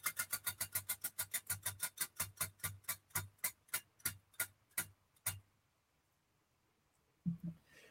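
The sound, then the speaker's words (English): A spinning prize wheel ticks rapidly against its pointer, the sharp clicks spacing out steadily as it slows, then stopping abruptly, followed by a brief low thump after a short silence. “give us a three two one we're going to spin the wheel three two one”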